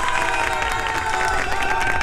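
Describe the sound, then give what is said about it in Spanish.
Applause and cheering from a crowd, a dense, even wash of clapping and shouts held at steady loudness, with sustained tones running beneath it. “la estamos pasando muy bien y eso se merece un aplauso.”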